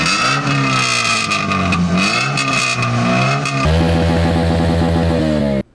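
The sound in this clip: Loud revving of an engine with an exaggerated modified exhaust, from a motorcycle or car checked at a traffic inspection in Mersin. A steady roar dips and swells in pitch, then jumps to a harsher, higher rev before cutting off abruptly.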